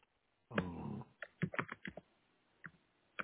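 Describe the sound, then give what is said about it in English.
Typing on a computer keyboard while entering a description for a post. There is one denser burst of keystrokes, then scattered single taps in an uneven rhythm, all fairly faint. “Okay, type your description here. Type here.”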